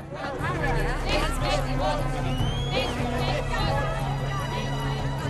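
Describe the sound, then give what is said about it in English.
A crowd of Ban the Bomb protest marchers moves in, a continuous babble of many overlapping voices at a steady, fairly loud level. “We have a crowd moving in. It's some sort of protest march.”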